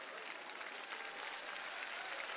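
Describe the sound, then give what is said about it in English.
Applause on a radio call-in show, a steady patter of clapping with a muffled, dull tone that lacks bright highs and keeps an even level throughout. “I think highly of him, so let's get a clap.”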